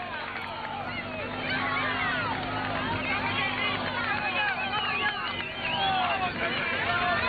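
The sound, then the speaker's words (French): Crowd roar from spectators lining a Tour de France mountain climb, saluting a rider near the summit. A dense, steady wash of shouting and cheering voices continues loudly for the whole stretch with no break. “C'est l'ovation, hein. C'est l'ovation pour Félix Gall qui n'a plus levé les bras depuis la 17e étape du Tour de France.”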